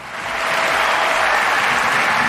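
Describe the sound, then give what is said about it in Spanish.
A standing crowd at a tennis court applauds and ovates a champion at his farewell match. Dense clapping swells over the first half-second, then holds loud and steady to the end. “Rafael Nadal Parera perdía, pero la pista Filichatri en pie ovacionaba y aplaudía a nuestro campeón.”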